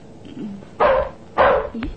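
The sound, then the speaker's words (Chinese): A dog at a door gives two loud, sharp barks, with soft whining yips before and after them. “睇只狗好似知道呢件事咁、哦，佢帮手叫门喎”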